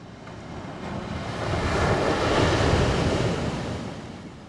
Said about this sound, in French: L'océan qui gronde